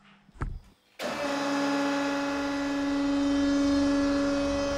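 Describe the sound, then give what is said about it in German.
A press compressing 130 glued layers of birch bark under 10 tonnes starts with a sharp onset and settles into a steady, droning hum with a strong tonal whine. A brief knock comes just before it starts. “Dann kommt alles in eine Presse.”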